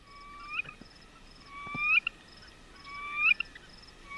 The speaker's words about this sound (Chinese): 这是雄鸟的歌声